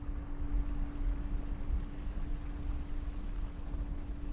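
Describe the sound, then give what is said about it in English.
Steady engine drone of a boat speeding across open water during a whale survey, with a constant low hum under a broad rush of wind and water, unbroken and even throughout. “The boat speeds across the water.”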